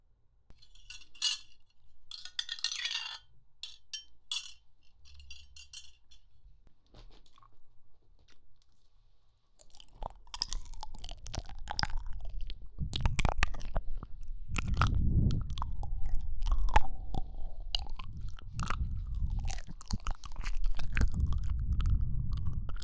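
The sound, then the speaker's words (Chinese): Someone eats porridge, with faint clinks early on, then from about the midpoint louder, continuous wet mouth and chewing sounds with smacks and gulps. No one talks. “一起来喝粥吧，一会儿都要凉了。”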